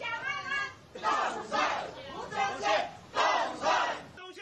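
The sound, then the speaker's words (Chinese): A crowd chants and cheers election-victory wishes during a campaign walkabout through a market in Yilan, in repeated rhythmic bursts of many voices rising and falling in a steady beat. “受到民众的热情欢迎。进市场扫街时，现场预祝当选的声音此起彼落。”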